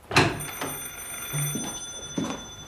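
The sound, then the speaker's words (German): A telephone ringing in a house's hallway: a few short, bright, rattling bell bursts, moderately faint, with no talk. “Entschuldigen Sie das Telefon.”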